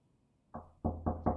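Knocking on a door: four firm raps, the first slightly softer and then three in a quick, even rhythm, with no talk.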